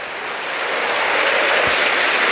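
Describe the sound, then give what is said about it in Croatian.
Crowd applause fills a football stadium as Ivan Perišić is substituted off for Ivanović. The clapping is steady and dense, a loud wash of noise that swells slightly as it goes on. “Pljesak iza Perišića”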